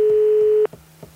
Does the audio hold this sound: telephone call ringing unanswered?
yes